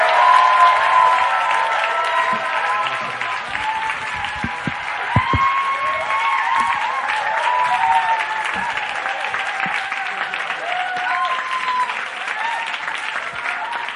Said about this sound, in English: let's put our hands together. Let's welcome up Pastor Dave Gibbons from New Song Church.